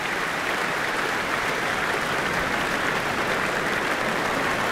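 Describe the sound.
Sustained applause from a large concert audience at the Royal Albert Hall after an orchestral Mendelssohn performance, an even, dense patter of many hands that holds steady throughout.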